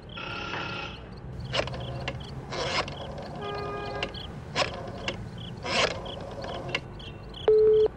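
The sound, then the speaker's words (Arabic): Telephone being dialed in a phone booth: a few short mechanical bursts of clicking and whirring, evenly spaced, then a brief steady electronic tone at the end. “علي أن أتصل بالعقيد محصص. هذا هو كشك الهاتف”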